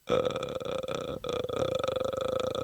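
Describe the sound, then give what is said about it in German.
A voice imitates the ghost's croaking rattle from the Japanese horror film The Grudge. The guttural, creaking drone runs for almost three seconds, with one brief break partway through. “Das war dieses Geräusch bei The Grudge.”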